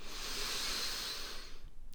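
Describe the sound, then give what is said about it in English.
A single long, deep breath sounds as a steady, airy hiss that holds evenly for most of the moment, then fades out near the end. “Let's take a moment for one deep breath and then enjoy the conversation.”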